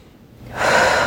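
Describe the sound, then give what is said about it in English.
A single big, deep breath taken in during a finger-tapping exercise: faint at first, then swelling into a loud, rushing inhalation in the second half, with no talk. “Big deep breath.”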